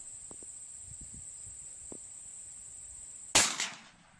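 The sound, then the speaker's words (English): A single sharp gunshot cracks out near the end, followed by a quick second burst and a decaying tail, over a steady, high, insect-like whine and a few faint low ticks. “I'm going to shoot my gun and see if they can hear it. So go ahead and fire it off. We're going to shoot off our gun here.”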